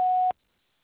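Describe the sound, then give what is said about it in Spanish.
A voicemail tone sounds after an answering machine greeting: a single short, steady, clear beep that cuts off abruptly into silence. “Después del tono, grabe su mensaje.”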